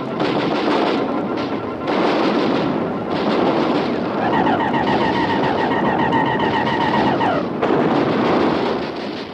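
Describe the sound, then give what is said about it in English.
Artillery batteries firing a repeated barrage, a continuous heavy rumble of overlapping booms and blasts, with a high warbling tone running through the middle stretch. “All batteries, repeat fire!”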